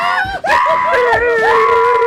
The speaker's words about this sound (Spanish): Así también gritamos de emoción porque ganaste